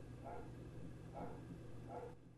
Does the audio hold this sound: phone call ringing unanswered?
no

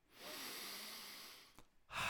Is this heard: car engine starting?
no

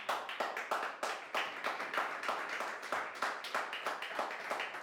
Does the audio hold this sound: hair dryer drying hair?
no

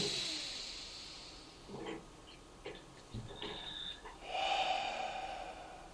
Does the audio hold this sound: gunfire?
no

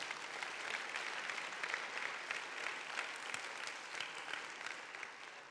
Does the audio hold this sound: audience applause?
yes

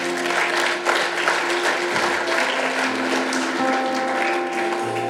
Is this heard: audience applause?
yes

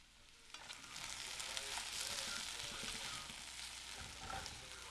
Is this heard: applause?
no

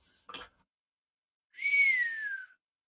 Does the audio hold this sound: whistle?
yes

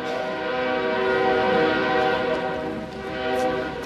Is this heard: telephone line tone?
no

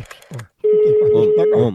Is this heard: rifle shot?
no

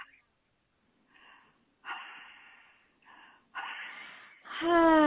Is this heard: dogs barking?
no

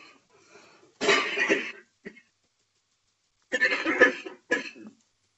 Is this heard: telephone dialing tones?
no

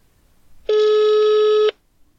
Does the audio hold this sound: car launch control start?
no

